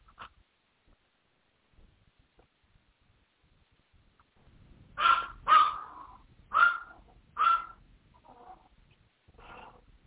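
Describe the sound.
A small mixed-breed dog barks after a quiet start: four loud, sharp barks in quick succession, then a couple of fainter ones.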